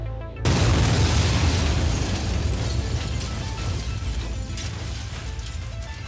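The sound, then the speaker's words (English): A massive explosion as the secret base Area 52 self-destructs: a sudden, loud blast erupts after a brief quiet moment, then becomes a dense, roaring rumble that slowly thins out. “Area 52 is self-destructing now.”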